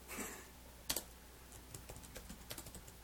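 Typing on a computer keyboard: many faint, quick key clicks in an uneven rhythm, with a brief louder cluster of strikes near the start.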